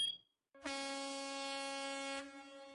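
A vehicle horn blasts once in a single long, steady, loud blare that holds at one pitch for well over a second before cutting off.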